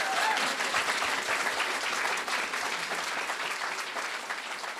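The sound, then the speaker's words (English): Enthusiastic audience applause at the close of an on-stage interview at a science festival: dense, steady clapping from a crowd that eases off slightly toward the end. “enthusiastic applause from the audience for Associate Professor Siouxsie Wiles”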